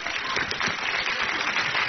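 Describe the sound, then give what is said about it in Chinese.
Applause from an audience answering a performer's call to clap, a dense, even patter of many hands that runs unbroken for about two seconds at moderate volume. “大伙儿说对不对？鼓掌。”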